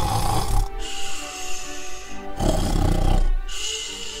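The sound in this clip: A young man snores while asleep at an inn, his head resting on a sack: rough, rasping snore breaths in a slow alternating rhythm, fairly loud and heard alone without talk.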